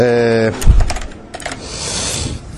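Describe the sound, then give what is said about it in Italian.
Typing on a computer keyboard to enter text in Word: a brief steady tone, then a short run of sharp, uneven key clicks that thin out into soft background noise. “Per inserire del testo utilizzeremo la tastiera, sempre che la tastiera sia ben collegata.”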